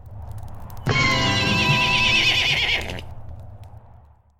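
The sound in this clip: A horse whinnies during a street battle: one long, high, wavering neigh lasting about two seconds, loud over a low background hum, then fading away.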